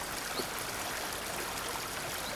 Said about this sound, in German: Über eine Steinschwelle fließt ein Bach.